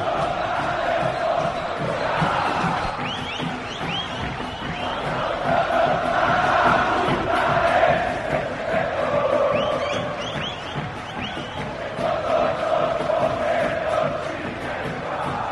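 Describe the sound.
Juventude football fans in a stadium crowd cheer and chant to celebrate a return to Brazil's Série A, a continuous roar with rhythmic swells of massed voices.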